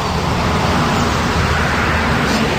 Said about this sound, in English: That's not it. That's just traffic there.